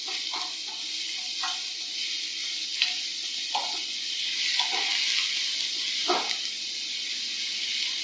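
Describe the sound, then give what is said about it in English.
Mushrooms fry in a hot pan while being stirred: a steady, bright sizzling hiss runs throughout, broken by several short scraping strokes of the stirring at an irregular pace, with no talk. “Hot pan again. Last of the mushrooms. And keep stirring.”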